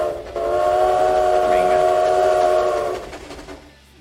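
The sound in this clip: A train horn sounds one long, steady, chord-like blast of a few seconds. Rumbling rail noise sits under it, and the sound fades away at the end.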